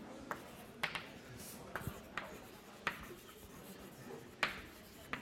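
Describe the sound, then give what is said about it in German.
Writing on a board during a mathematics lecture: faint scratchy strokes punctuated by many sharp, irregular taps as the writing instrument meets the surface, with no speech over it. “jetzt schreibe ich gleich mal dazu”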